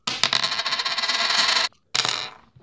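A penny coin is flipped and lands, making a long bright metallic rattle and ring that stops abruptly. After a brief silence, a second shorter ringing rattle fades out. No voices.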